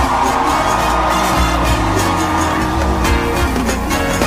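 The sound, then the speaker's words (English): A concert crowd screams for a performer, a dense, loud, continuous roar of many voices that holds steady throughout without a break. “Hey, let me hear you scream.”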